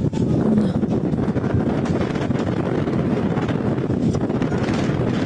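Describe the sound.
Strong wind roars steadily as it fans a fast-spreading wildfire in Boyacá, Colombia. The noise is dense and continuous, with low buffeting across the whole stretch and no pauses.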